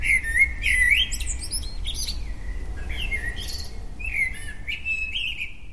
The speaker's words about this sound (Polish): Na szczęście obok mojego domu jest las, a tam ptaków nie brakuje.